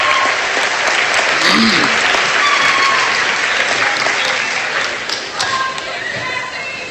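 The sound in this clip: An audience at an athletic hall of fame induction night applauds the committee members, loud and continuous clapping that eases off a little toward the end.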